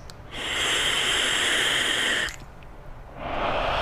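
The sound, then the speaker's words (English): Breathy hiss of hookah smoke being exhaled, a long, even exhale lasting about two seconds, then a brief pause before a second exhale begins near the end. “Hear the exhale?”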